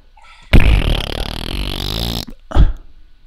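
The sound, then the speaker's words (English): A fart noise plays from a phone: one long, loud, buzzy blat that lasts more than a second and a half, then a shorter second burst after a short gap. “That was a fart noise.”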